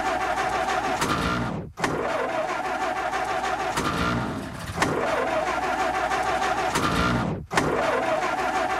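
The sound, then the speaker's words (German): The engine of a manual-transmission car during a driving lesson runs at a steady mid-pitched drone, broken by two brief sharp dips where the sound drops away and then picks up again, with no talk. “Dann wollen wir jetzt aber mal den Wagen anlassen, hm?”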